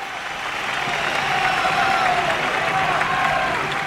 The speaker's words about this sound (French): Son discours, perpétuellement haché par les acclamations du public